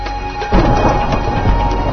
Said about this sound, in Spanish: ya vienen los truenos y vienen aquí los estruendos